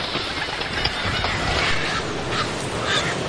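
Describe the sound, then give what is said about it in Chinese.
A flock of migratory birds calls on a coastal island along the East Asian–Australasian flyway. Many faint, overlapping honking and quacking calls rise and fade against a constant rushing background noise. “这里地处东亚至澳大利西亚迁徙路线，每年都有数百万只候鸟经过这里。”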